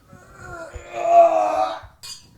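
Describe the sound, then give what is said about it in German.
Wine glasses clink together in a toast, leaving a clear ringing tone that swells and then fades over about a second, followed by a short bright chink at the end. “Müssen wir wieder einen Wein trinken, kommen wir müssen anstoßen. Nochmal anstoßen.”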